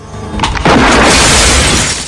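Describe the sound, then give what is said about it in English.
Shotgun blast sound effect from a shot fired through a car windscreen. A sharp, heavy boom is followed by a long, dense roar of shattering glass that decays slowly. “Van Cleef beams an evil smile as he presses the shotgun's trigger.”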